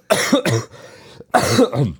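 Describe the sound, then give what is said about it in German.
A person coughs in two close pairs of loud, harsh bursts separated by a brief quiet pause. “So, ich muss nochmal das Mikro ausschalten, wenn ich huste.”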